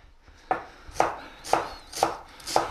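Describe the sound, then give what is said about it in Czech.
A knife chops an onion coarsely on a board, five evenly spaced, crisp chops at a steady rhythm, each a short sharp knock with nothing else heard. “Nakrájím si cibulku, takovou trošku polohrubou,”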